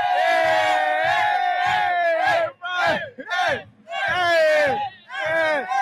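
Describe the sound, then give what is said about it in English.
Inter Miami Vice City supporters chant and cheer in celebration after the Leagues Cup win on penalties. Their loud, sung crowd voices come in long bursts broken by short gaps. “Yeah, we got the Vice City supporters here happy, celebrating the team and having a blast. They're partying.”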